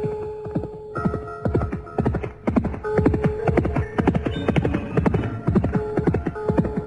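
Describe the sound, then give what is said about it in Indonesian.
Horse hooves galloping as a rider spurs the horse on hard, a fast, loud run of many rhythmic clip-clop beats that keeps going throughout. “ketika tangannya kuat-kuat memegang kendali kuda yang dipacunya”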